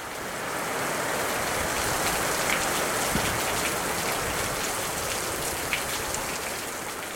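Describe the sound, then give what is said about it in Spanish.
Steady rain falls on a cold winter day near the Pacific coast, a dense even hiss of drops at constant loudness from start to finish, broken only by a few slightly sharper drips. “Es un invierno frío y la lluvia acompaña los días.”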